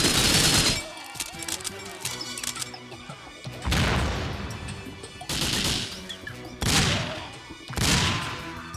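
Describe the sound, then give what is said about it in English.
Loud blasts after a grenade is thrown in a video game: five heavy, noisy bursts separated by short pauses, with a low rumbling bed running between them. “Let's go ahead and throw this grenade.”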